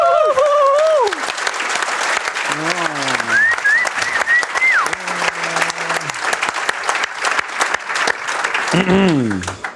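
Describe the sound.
An audience at a live show applauds with dense, steady clapping that lasts throughout, while voices whoop and call out over it.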